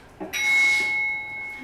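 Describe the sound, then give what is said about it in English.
A real bell is rung by a Bluetooth signal from a small box with a speaker in a gallery display. It gives one fairly quiet ring that sustains with a held metallic tone, then slowly fades. “Ring Bluetooth transmission makes the bell ring. I'm going to try that again.”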